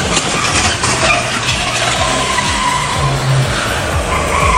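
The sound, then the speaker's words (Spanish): Tires skid and squeal as a car drives against traffic down a sloping street at a corner, a loud, sustained rasping noise with engine rumble underneath and no clear impact. “Chocó un vehículo en la esquina. Chocó el kiosquito que está ahí en la esquina.”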